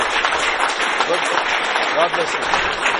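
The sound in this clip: An audience claps, producing a dense patter of many hands at an even level, with voices mixed in among the applause.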